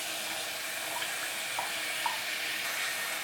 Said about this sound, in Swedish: Och då tar vi kastrull här och fyller i vatten i den.